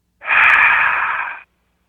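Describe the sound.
A voice imitates the heavy breathing of something unseen in a dark bedroom at night with a single long, raspy, hissing breath, alone and fairly loud, that starts abruptly and stops abruptly.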